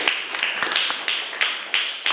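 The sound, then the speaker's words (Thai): A classroom in Thailand claps for a student, with evenly spaced, crisp claps struck together in a steady beat, each one sharp and short. “ขอบคุณค่ะปรบมือให้กับวริศด้วยค่ะ”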